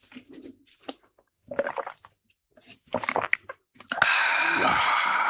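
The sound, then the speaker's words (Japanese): Biting and chewing a Taiwan-ramen-flavoured Baby Star crunchy noodle snack: several irregular crisp crunching bursts separated by short pauses, ending in a louder, sustained crackling crunch. “台湾ラーメン味、ベビースターを。 オーケーです。かじりますよ。”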